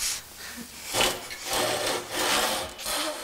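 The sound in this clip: A hand saw cuts wood in carpentry training, worked along the full length of its blade: several rasping strokes that swell and fade in a steady back-and-forth rhythm.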